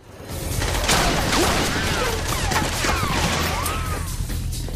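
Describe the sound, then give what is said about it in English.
A film action scene is filled with dense gunfire and ricochet effects. The roar is loud and continuous, and several whining ricochet sweeps cut through the barrage. “Really good sound effects crew working on this scene. All the gun effects and ricochets and all that.”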